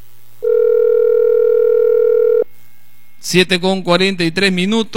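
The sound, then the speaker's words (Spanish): A telephone line tone on a call placed to a district mayor: one steady, continuous electronic tone lasting about two seconds, then, after a short pause, a voice speaking. “Estamos llamando a Abel Gregorio Suárez Ramos”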